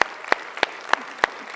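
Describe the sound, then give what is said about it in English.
Clapping from a church audience welcoming first-time guests: a steady, evenly spaced run of six sharp claps over a low, continuous wash of noise. “Can we give it up for all of our first-time guests?”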